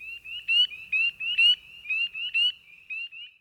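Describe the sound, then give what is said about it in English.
Spring peepers, tiny thumbnail-sized tree frogs at a springtime vernal pool, give many sharp, high, upslurred peeps in a quick, uneven series against near silence. “You are far more likely to hear the sharp peeping call of these tiny tree frogs than to actually see one.”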